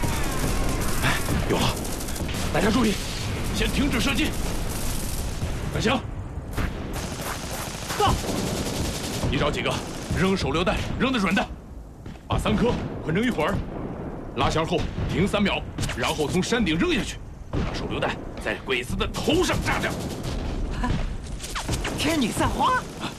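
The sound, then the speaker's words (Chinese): Heavy gunfire of a battle on a rocky hillside rolls on without pause, dense and loud, with men's voices shouting over it throughout. “日本大队长，敌人火力太猛，我们的人伤亡不少啊！”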